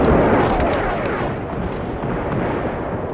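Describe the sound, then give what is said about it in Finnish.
A heavy artillery barrage pounds the ground on the far bank of a river, a loud, continuous rumbling roar of overlapping booms with no clear individual blasts, steady from start to end. “Vastarannalla myllersi raskas keskitys maata. Nyt ne ampuvat Sauverhon joelle.”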